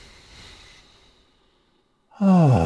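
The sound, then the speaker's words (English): A slow, deep breath: a faint, drawn-out breathy inhale that fades away, then after a short pause a louder, voiced sighing exhale with a slightly falling pitch. “I'm going to take a deep breath, and anybody listening to this, I invite you to take a real slow, deep breath.”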